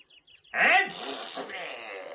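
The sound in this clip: A single human sneeze bursts out sharply in a voiced gasp, then trails into a long breathy hiss after a few faint soft sounds.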